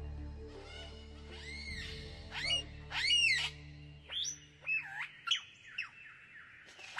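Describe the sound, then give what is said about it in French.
A superb lyrebird sings in the shade of eucalyptus, mimicking other birds with a varied run of arching whistles, chirps and rapid trills. The calls come in many loud bursts, and a low steady tone runs beneath the opening seconds. “Un magnifique oiseau lyre, aussi appelé ménure superbe. Il possède la faculté d'imiter le chant des autres oiseaux”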